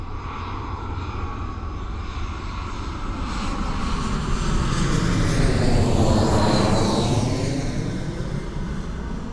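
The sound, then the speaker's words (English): Airplanes fly overhead at an airport, making a broad engine roar that swells to a loud peak and then eases off while the drone continues. “here's kind of that drop off sound and bring in some planes flying overhead.”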